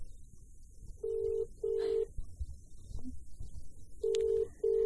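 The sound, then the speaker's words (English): A telephone ringing tone follows a dialed call, sounding as two pairs of short, steady double-rings with a pause between the pairs, over a faint hiss. “Don't know, but I've just dialed the number.”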